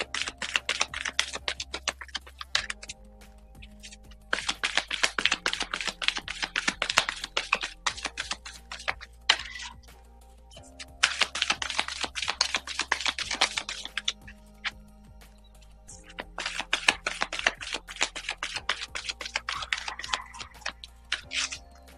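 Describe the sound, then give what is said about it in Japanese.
Tarot cards being shuffled before a card reading, heard as rapid, crisp clicking and pattering in several separate bursts, with short quieter pauses between them and no talking. “それでは今日のね、カードリーディングしていきましょう。カードシャッフルします。少々お待ちください。”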